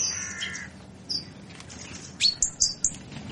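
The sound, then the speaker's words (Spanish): Birds sing in the Villaverde city neighbourhood, giving a few short, bright, high chirps that cluster toward the end over a faint hiss of background noise. “el primero vamos a conocerlo con el sonido de las aves de Villaverde.”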